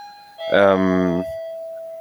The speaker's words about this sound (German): Jetzt hat geklingelt.